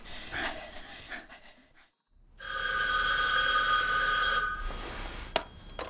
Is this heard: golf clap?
no